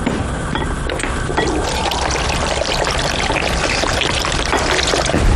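Light soy sauce poured while cooking makes a continuous splashing trickle of liquid, steady and fairly loud for about five seconds, with no talking.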